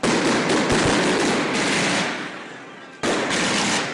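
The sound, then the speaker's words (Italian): Dense New Year's Eve firecrackers and fireworks (bangers, rockets, fountains) exploding in a loud, continuous crackling barrage of rapid pops. The volume dips briefly, then the barrage surges back. “Raudi, fontane, bengala, fischioni, petardi o castagnole, in una parola i botti.”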